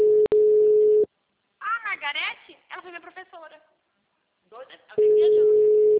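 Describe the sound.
A telephone line tone sounds while a call is placed: a steady, loud, mid-pitched tone with a brief break near the start, then voices talking, then the same tone returning loud to the end.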